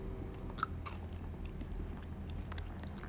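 Crunchy food being bitten and chewed, heard as faint, crisp crunches and moist chewing at an even pace, with one sharper bite early on and no talk.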